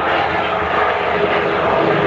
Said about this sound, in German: startet ein Flieger oder so